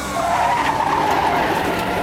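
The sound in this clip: Tires screech as a car swerves and skids during a police chase. The squeal is a loud, sustained shriek that holds steady for the whole clip, with engine and road rumble underneath.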